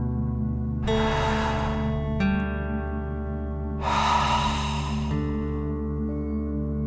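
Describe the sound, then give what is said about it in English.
A deep breath in and out during a calming guided breathing exercise: two long, airy breaths of about a second each over a steady, soft musical drone. “Deep breath in and out.”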